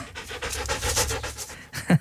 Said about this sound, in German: Ein Hund, der Herr Pfarrer ist.